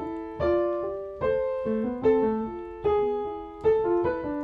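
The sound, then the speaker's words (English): The answer voice of a Bach fugue, played alone as a slow single melodic line of sustained notes that each fade after striking, moving stepwise at a measured pace and moderate volume. “So in the Art of Fugue, the first fugue, the answer sounds like this.”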